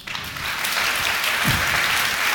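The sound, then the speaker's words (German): Audience applause, a dense and even patter of many hands clapping that holds steady at moderate loudness throughout. “Kleiner Applaus für die Videospiele, bitte.”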